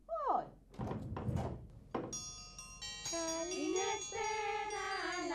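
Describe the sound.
A door opens for arriving guests at a Christmas gathering. A few heavy thunks and knocks come in the first two seconds, then bright, sustained ringing and tinkling tones carry on to the end.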